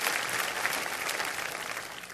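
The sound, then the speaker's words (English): Hands clapping across a church audience, a full, even burst of applause that stays level throughout without any talking. “Church, why don't we clap our hands for all of those who have joined us through media.”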